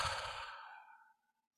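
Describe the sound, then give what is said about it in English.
A deep breath released as one long, soft sighing exhale. It is breathy and airy, heard alone, and fades steadily to silence over about a second. “take a deep breath in. And release.”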